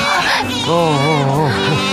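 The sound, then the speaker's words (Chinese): A newborn baby cries in loud, wavering wails that rise and fall in pitch over about two seconds. “赶紧想个辙，别让他哭了。 八成是饿了。”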